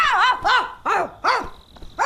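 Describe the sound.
A human voice imitates a dog barking during a fight, giving four loud, harsh, rising-and-falling bark-like yelps in quick succession.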